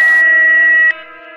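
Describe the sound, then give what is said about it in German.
An answering machine gives a long, steady electronic beep at an even pitch, loud and alone, then cuts off to a quieter lingering hum. “Hinterlassen Sie eine Nachricht nach dem Signal.”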